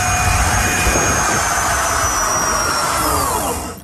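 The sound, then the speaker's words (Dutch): Loud, steady jet engine roar with high whining tones, from a jet engine built into a fully converted skinny bike with a throttle that reached 120 km/h. The roar holds even, then cuts off abruptly at the end. “Maar dat is niet gewoon met zo'n opvoersetje. Helemaal omgebouwd. Een straalmotor ingezet.”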